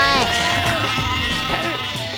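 A sheep bleats in a video game, a loud, wavering harmonic cry that fills the whole short clip.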